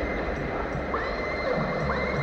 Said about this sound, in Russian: Слышится ржание лошадей.